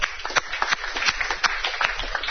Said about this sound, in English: we would like for you to join me in giving Carson Sports Grill a nice round of applause.